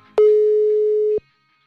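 A telephone tone sounds while a call is being dialed: one loud, steady, mid-pitched beep lasting about a second, with a short click at its start and end.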